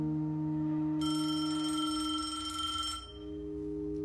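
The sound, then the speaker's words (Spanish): A telephone rings in one continuous, shrill, bright burst of about two seconds over a low steady hum, then cuts off. “coge el teléfono”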